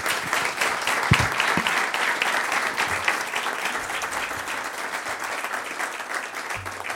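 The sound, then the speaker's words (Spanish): Audience applause at a corporate health-day forum: steady, even clapping from a crowd sustained for about seven seconds at a moderate level, with a few low thumps mixed in. “Un aplauso para ellos, ¿eh?”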